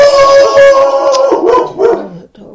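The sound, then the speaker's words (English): A dog barks loudly, opening with a drawn-out howling tone and breaking into a few short yelping barks before falling quiet. “Somebody must be here. The dog's barking.”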